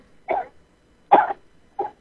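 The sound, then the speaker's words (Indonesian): Three short, harsh coughs from a caller on a telephone line, separated by brief silences, with the middle cough the loudest and longest. “Wah, batuk-batuk nih.”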